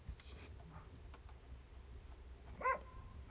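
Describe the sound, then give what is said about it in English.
Faint barking of a dog wearing a shock collar at home, mostly low background murmur with one short, sharper bark standing out near the end. “You can hear my dog in the background. I have a shock collar on him, but obviously he must have moved it around.”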